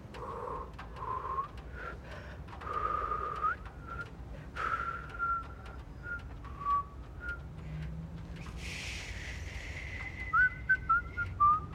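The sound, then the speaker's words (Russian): People whistling: a few short whistled notes in the middle, then a brighter, warbling run of quick trilled notes near the end, all over a steady low background hum. “Они свистят.”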